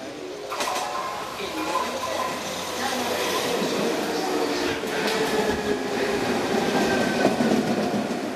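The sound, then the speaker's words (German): Rumbling ride aboard an older but modern-looking metro subway train in Caracas, loud continuous wheel and track noise with clickety-clack rhythm and faint high squeals running throughout. “Ich mache mich mit der U-Bahn auf den Weg in den Westen der Stadt.”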